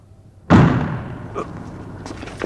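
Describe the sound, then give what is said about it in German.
A sharp gunshot-like bang from a German radio play: one loud, abrupt blast with a heavy low thump that decays slowly, followed by a few fainter knocks. “Sind die verrückt? Das ist ja nicht zu glauben. Die schießen ja im Ernst.”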